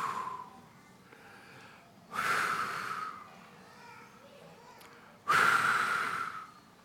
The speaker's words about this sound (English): So right now, if you don't mind, I'm going to just breathe over us all. And just receive the Holy Spirit. Lord, I just breathe.